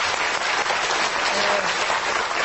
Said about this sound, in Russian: Вы можете не аплодировать.